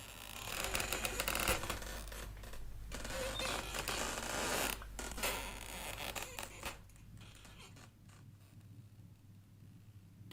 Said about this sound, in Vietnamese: dùng dây thừng buộc lên cái xà nhà gỗ, thắt lại thành cái thòng lọng mà đu vật nặng. Cho nên cái âm thanh nó cứ kéo ca kéo kẹt, kéo ca kéo kẹt, rợn cả người.